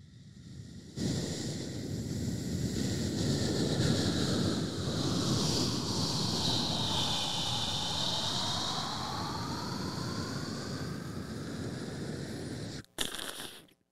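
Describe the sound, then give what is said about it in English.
A voice imitates a spaceship landing: a long, breathy, roaring whoosh with a wavering whistle-like tone that sweeps down and back, held steadily for about twelve seconds before it cuts off abruptly. “I feel like you could also really do the sound effect of a spaceship landing.”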